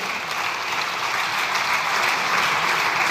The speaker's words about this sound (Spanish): A él sí que le aplaudieron.